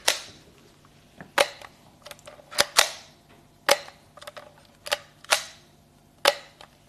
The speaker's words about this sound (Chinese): 听见快门的声音吧